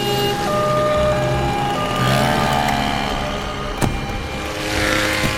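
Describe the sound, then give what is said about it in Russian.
A car drives up to a large building, with steady engine and road noise running evenly throughout, a faint tonal hum over it, and one brief sharp click near the end. “Машина подъехала к большому зданию.”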